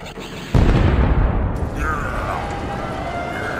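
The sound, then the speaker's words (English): Explosion sound effect of missiles being fired in a battle: a sudden loud boom that settles into a sustained, rumbling roar, with a thin whistling tone appearing partway through. “As Commander Akbar leads his men to the battle, he awaits until the perfect moment to fire all missiles”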